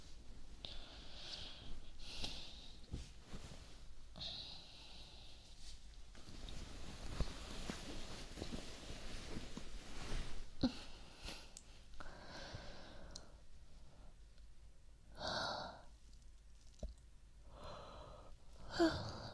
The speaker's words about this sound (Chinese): 没看见我这哈欠打的，一个接一个的。